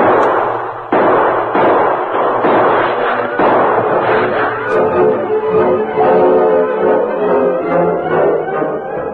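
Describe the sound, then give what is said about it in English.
Gunshots in an old Western drama shootout: a series of loud, sharp bangs, each with a booming tail, running into a dense, sustained roar that fills the rest of the passage. “Tonto, you continue to give answering shots to theirs.”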